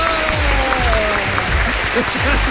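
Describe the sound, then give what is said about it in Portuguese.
Applause for a singer after his performance on a radio show, continuous, even clapping that runs loud under a speaking voice. “merece os aplausos, cadê os aplausos aqui? Não, isso aí foi sensacional, palmas pra ele, vai lá”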